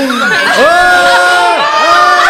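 Cheering with high, excited whoops, loud, sliding voiced cries that overlap and continue without a break through the short burst.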